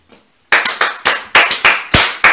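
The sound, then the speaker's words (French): An audience at a Bible teaching applauds a woman: a short run of sharp, separate hand claps in an uneven rhythm, with no talk over it. “Qui est la première à avoir trouvé? C'est la soeur grâce. Applaudissez pour elle.”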